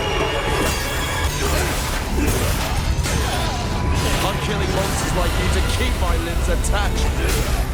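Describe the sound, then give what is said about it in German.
Samurai sword combat against demons in Capcom's video game Onimusha, set in historic Kyoto: loud, dense, continuous clashing with crashes, impacts and swishing strikes piled on top of each other. “Ich habe heute zum Beispiel Onimusha vom japanischen Spieleentwickler Capcom angespielt. Da ist man so ein Samurai, der mit dem Schwert sich durch die historische japanische Hauptstadt Kyoto gegen allerlei Bösewichte wie Dämonen kämpft.”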